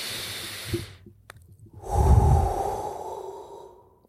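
Deep breath taken before a prayer. A short hissing breath is followed by a pause, then a long, slow, audible breath that swells and gradually fades out.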